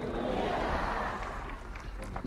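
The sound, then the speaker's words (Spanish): A crowd cheers for the Pope in San Cristóbal de La Laguna. The shouting and roaring of many voices merge into a dense, steady wall of noise that holds at a similar level throughout. “Ahí estamos escuchando al público.”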